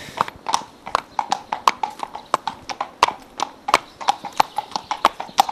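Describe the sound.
Horse hooves clip-clop in a steady, even rhythm, with many crisp hoof strikes as a brushed and saddled horse at a riding school is led toward the arena.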